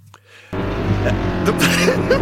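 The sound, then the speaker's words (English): A Range Rover pulls up onto a forecourt. After a quiet start, a vehicle rumble rises abruptly and then stays steady and fairly loud to the end. “when the Range Rover pulled up.”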